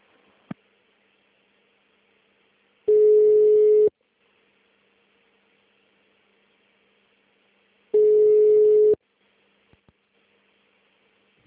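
Ringback tone on a telephone line while a call is being transferred: two steady one-second tones about four seconds apart, alone on a near-silent line apart from a couple of faint clicks.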